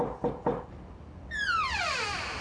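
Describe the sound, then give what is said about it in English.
Two sharp knocks on a bedroom door, struck a quarter-second apart, followed by a sustained high tone that slides steadily downward in pitch and fades out. “Oh, we've got to wake him. Better knock harder.”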